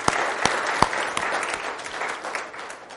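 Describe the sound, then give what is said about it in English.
A church audience applauds at a morning Easter resurrection service, a steady wash of clapping with a few sharper, louder claps standing out. “Let's give our Lord a hand this morning.”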